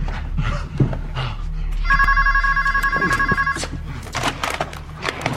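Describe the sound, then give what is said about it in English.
A telephone rings in one sustained warbling burst in the middle, bright and fairly loud over steady background noise. “She clumsily picks up the phone.”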